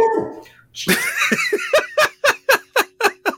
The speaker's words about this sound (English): That was not scheduled. That was my dog.